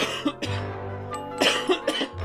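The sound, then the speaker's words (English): Coughing from a schoolboy with a pain in his stomach: a few rough, throaty bursts at uneven spacing, with no talk. “Then he started to cough.”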